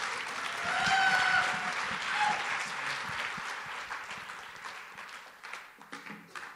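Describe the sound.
Audience applause greets a speaker being welcomed on stage at a talk: dense, sustained clapping that holds steady, then thins and tapers toward the end.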